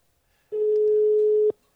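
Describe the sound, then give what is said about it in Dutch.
A telephone ringing tone on an outgoing call sounds once as a steady, pure, mid-pitched beep lasting about a second, alone and clean against silence. “Ik zal meteen eventjes bellen.”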